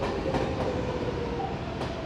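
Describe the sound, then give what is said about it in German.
A New York subway train carrying commuters between Long Island City and Manhattan rumbles with a loud, continuous roar, with a few faint clacks of the wheels heard through it. “Die meisten Pendler aber nehmen die U-Bahn. Long Island City ist nur ein paar Stops von Manhattans Bahnhof Grand Central Terminal entfernt. Ein Katzensprung, aber ein lauter.”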